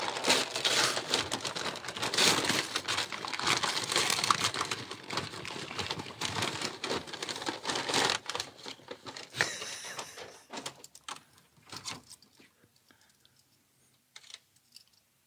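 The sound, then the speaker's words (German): Crinkling wrapping paper as a gift holding a barbecue branding iron is unwrapped: dense, busy rustling and tearing for several seconds, then sparser, fainter crackles that trail off into near silence. “Lass uns jetzt eine Stunde das Geschenk auspacken. Ich mache es schnell.”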